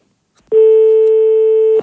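A telephone tone sounds after a call is hung up: one loud, steady, unbroken electronic beep at a fixed pitch. It lasts a little over a second and plays alone after a brief silence.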